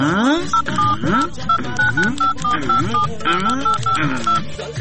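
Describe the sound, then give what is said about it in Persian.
A telephone is dialed, producing a long run of short, evenly pitched keypad tones in quick succession while a voice talks over them. “ای والا راست میگی، تو باش که برش یک زنگ بزنم.”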